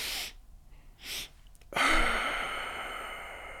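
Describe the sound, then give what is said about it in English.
A physiological sigh breathed through the nose: two short, breathy inhales separated by a pause, then one long, steady exhale that slowly fades. “If you're feeling too stressed, it's a double inhale through the nose.”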